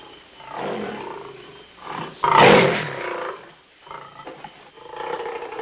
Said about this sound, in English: Nearby, a lion stands at the edge of the forest.